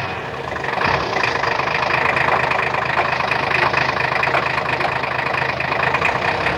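Steady car engine running while the car is driven, a continuous even drone of low and mid tones that holds without pause from start to end, with no voices.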